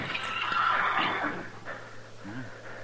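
A saddled horse with a bedroll tied on behind, standing tied at a corner, gives a harsh, high whinny that fades, followed later by a short, lower snorting sound.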